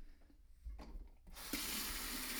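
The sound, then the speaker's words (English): Water running from a kitchen sink tap: a faint, near-silent stretch gives way to a steady, broad hiss of flowing water that holds at an even level to the end. “Turn on the water in the kitchen here.”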